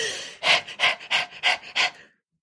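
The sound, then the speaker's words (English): People pant in imitation of a dog: five quick, breathy pants in an even rhythm, followed by silence. “Let's pant for a minute, everybody. Let's just do a little pant.”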